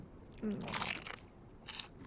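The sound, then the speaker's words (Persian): Someone chewing and biting into crunchy food, a few crisp crunches close together and then one more, fairly faint against a quiet background. “نباید بیشتر از این بخورم ولی خیلی خوشمزه است.”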